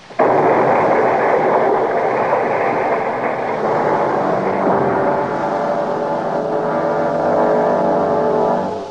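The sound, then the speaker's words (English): A thrown bottle of nitroglycerin explodes in a sudden loud blast that swells into a sustained, roaring rumble lasting several seconds before tapering off at the end. “You try throwing that bottle of nitro, Danny. Yeah, at you. Set it down now, gently. Set it down. No, no, I'm throwing it now.”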